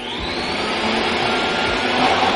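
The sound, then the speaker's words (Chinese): Vacuum cleaners run together to clear sand and rubbish from cracks, making a loud, continuous roar with a high whine on top. The level holds steady throughout, and no one speaks. “大家听住，如果手头上嘅吸尘机系 OK 嘅话 ，Go Go Go！”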